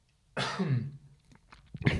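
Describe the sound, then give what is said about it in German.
Coughing from someone with a cold: a harsh, raspy cough burst, then a pause with faint small sounds, followed by a second shorter cough, heard alone without talk. “Kurze Erkältung noch hier auskurieren, ein bisschen am Husten.”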